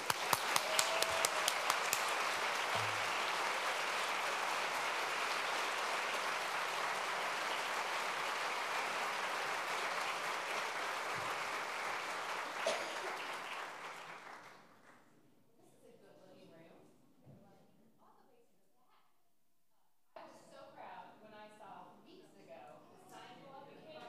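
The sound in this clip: Audience applause welcomes two speakers at a library-supporters' event. Dense, sustained clapping lasts about fourteen seconds, then fades to near quiet before a voice begins talking.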